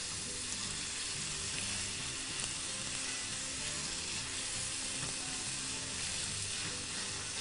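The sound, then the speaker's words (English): Rough-chopped garlic sizzles in a hot pan as it is added, a steady, fairly soft crackling hiss that holds evenly throughout with no talking. “I'm gonna go ahead and add in our garlic now, and I've rough chopped our garlic just to make it a little more earthy, a little more rustic. That goes down”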